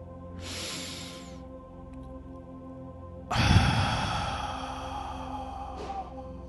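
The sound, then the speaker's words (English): Long, deep breaths drawn in through the nose and let out gently through the mouth: two soft, airy hisses, the first brief and the second longer and fuller. “Take a couple more long deep breaths from your nose, exhaling gently from your mouth.”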